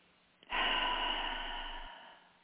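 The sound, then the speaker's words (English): A single deep breath, one long airy rush that swells in quickly and tails off over about a second and a half, taken during a guided relaxation exercise. “What I'd like for you to do is take one more breath”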